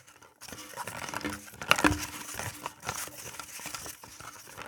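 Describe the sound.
Rustling and crinkling of paper entries being mixed in a lottery drum: a continuous dry, papery shuffle with scattered sharper crackles, holding a fairly steady moderate loudness throughout.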